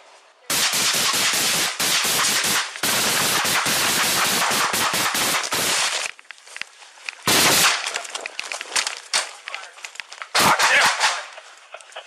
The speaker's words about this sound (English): Cover, we got one down. Code 3 fire, move him in. Officer down, code 3 fire. High powered rifle.